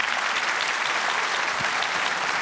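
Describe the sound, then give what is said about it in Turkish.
Dense, steady applause from an audience for a women's choir from Çukurbağ in Mut, Mersin, and its conductor, a continuous loud wash of many hands clapping with no voices over it. “Efendim, Mersin Mut Çukurbağ Kadınlar Korosu karşınızda. Büyük bir alkış. Ve değerli şefimiz Emel Çelik. Şefimize de alkış tabii ki.”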